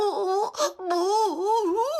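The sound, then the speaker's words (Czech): A child crying and wailing in one sustained, high, tremulous wail whose pitch wavers up and down, broken by a brief gasp before it resumes loudly. “Počkej, nebreč, hlavně nebreč.”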